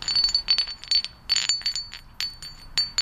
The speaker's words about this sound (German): eine Feuersteinart. Die braucht man, um Werkzeuge herzustellen. Und die klingen zum Beispiel auch ganz unterschiedlich. Manche, die klingen kaum, wenn man sie aneinander schlägt. Oder andere wiederum. Hier habe ich ein Stück gefunden.